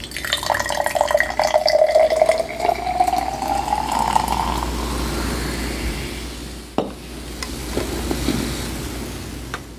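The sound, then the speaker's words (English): Ginger ale is poured into a drink mixed with almond extract and raspberry jam. A steady fizzing splash carries a tone that rises in pitch as the glass fills, followed later by one sharp tap. “And then we're going to top it with ginger ale.”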